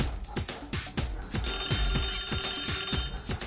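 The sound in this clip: An old-style telephone bell rings with rapid, evenly spaced metallic strikes. The ringing is continuous and rather faint, with no voices over it.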